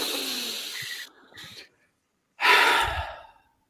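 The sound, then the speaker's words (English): People taking a deep breath together: a long airy breath with a short tail, a brief silence, then a second strong, whooshing breath that fades out, with no talking. “Can we all just take a deep breath together? Because that would be nice.”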